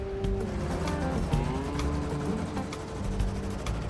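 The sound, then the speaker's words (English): A car drives away with a steady low engine hum and faint rattling, holding a fairly even level with no talk. “Charles and Rig watch the two drive away, then slowly pursue them with their headlights still off.”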